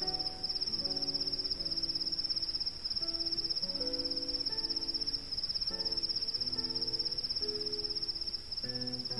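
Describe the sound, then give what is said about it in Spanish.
Crickets chirping in a continuous, high, even trill that holds steady and fairly soft throughout, with no pauses. “El canto del grillo.”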